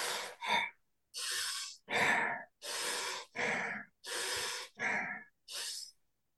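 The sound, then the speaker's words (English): Quick, forceful breaths during a breathing exercise: a steady series of sharp, noisy in-and-out breaths with brief gaps between them, loud and alone with no talk. “So if we were to do that together, it'd be 5 breaths fast like this.”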